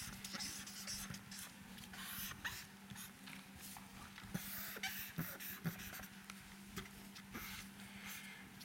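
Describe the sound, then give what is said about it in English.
Faint scratching of someone drawing a picture: irregular short strokes and taps scattered over several seconds against a low steady hum, with no talking. “Now, let me draw something else.”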